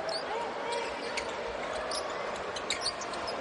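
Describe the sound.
A basketball bounces on the court during a dribble in a game, with a few dull thumps heard under a constant wash of arena crowd noise.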